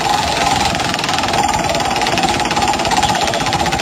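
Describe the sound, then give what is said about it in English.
A prize wheel spun hard and fast gives a dense, loud, continuous rattle of rapid clicks. The clacking holds steady without slowing, and no one talks over it. “Let's see what you get with the wheel of prizes.”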